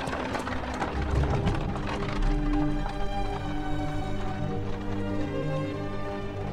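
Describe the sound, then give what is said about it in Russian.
Hoofbeats of a horse pulling a cart out of town: many steady clip-clops over a continuous tonal background. “Повозка выезжает за пределы города.”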